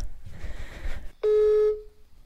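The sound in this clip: A telephone call going to voicemail: a stretch of rushing noise, then a single steady electronic beep that holds briefly and fades away.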